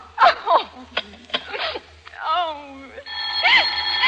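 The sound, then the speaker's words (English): Telephone ringing in short warbling, bell-like tones that swell toward the end, after a stretch of voices speaking. “Oh, who's trying to call me?”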